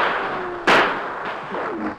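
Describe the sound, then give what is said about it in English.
Gunfire aimed at troopers during a shootout: one sharp, loud bang cracks out over a constant, dense background noise. “for a few moments they continued to fire at the troopers.”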